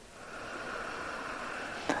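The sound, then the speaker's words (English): A deep inhale, drawn as one long, steady, breathy rush of air that stays faint throughout. “A deep inhale,”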